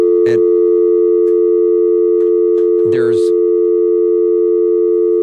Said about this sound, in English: I heard a dial tone in the headset